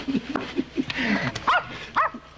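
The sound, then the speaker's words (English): A dog barks in a run of sharp barks and high yips with uneven spacing, the later yips loud and ringing. “Call off your dog”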